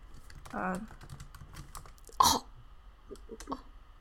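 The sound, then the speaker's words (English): Faint, sparse typing on a computer keyboard, with a few separate key clicks and taps and one sharper, louder knock near the middle. “Just type in Dear Hank and John.”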